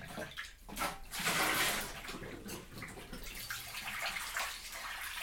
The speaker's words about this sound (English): So you're using the same bowl that you mixed it in, but you have it. Giving it a wash, yeah.